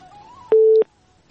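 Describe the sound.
A telephone busy signal sounds after a call is cut off: a single short, steady mid-pitched tone that starts and stops abruptly, with near silence around it.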